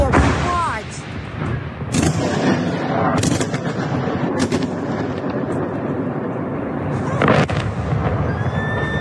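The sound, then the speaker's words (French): Missile strikes on Kyiv filmed by a resident from her home: a few sharp, loud blasts burst over a constant rumbling roar, with voices heard amid the noise. “Même scène à Kiev, où cette habitante a filmé les frappes depuis chez elle.”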